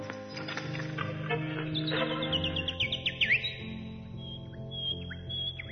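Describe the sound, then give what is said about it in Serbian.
A human voice imitating a little bird, with quick, high, whistly chirps and twitters that come in short bursts over a steady low tonal background. “Znam sad da to nije ptičica. Ne, to je glumac Mića Tatić.”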